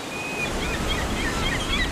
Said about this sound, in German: Hört ihr das tosende Rauschen der Wellen?